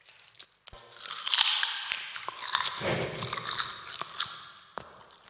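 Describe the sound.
Someone eats food, with a few sharp crunching bites followed by moist chewing and smacking. The sounds are fairly quiet and close, and there is no talk during the chewing.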